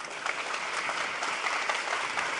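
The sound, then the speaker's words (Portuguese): Applause after a live technical demonstration of creating a storage drive: faint, steady clapping from a group, an even patter with no voices over it. “Merece um salve de palmas, hein?”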